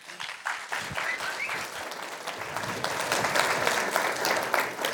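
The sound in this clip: Applause from a church audience welcoming a guest speaker: dense, steady clapping that stays full and even for the whole stretch, with no talk over it.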